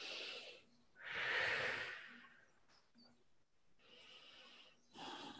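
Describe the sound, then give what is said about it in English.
Breathing during a slow exercise movement: a few audible breaths of air, one long, strong breath followed by softer, breathy exhalations and another short breath at the end. “so I'll do like, that's one way I can breathe in as I go around.”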